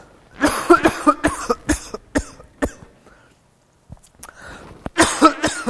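Repeated coughing and throat clearing from someone getting over a cold: a run of sharp, harsh bursts, a brief quiet gap, then another cluster of rough coughs.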